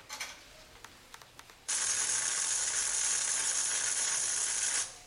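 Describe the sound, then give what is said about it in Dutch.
A lever pulled on a machine as an audio drama effect: a few light mechanical clicks, then a loud, steady hiss that runs for about three seconds before stopping. “Deze machine zal hem leven geven. Ik trek de hendel.”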